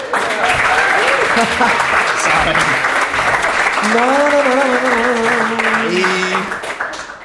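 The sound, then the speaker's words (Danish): Loud applause and cheering from a crowd at a live show. Voices and whoops ring out over the continuous clapping, which stays strong before fading away in the final second. “Velkommen til uh, live Fup i farvandet. Woo! Giv os lige en hånd.”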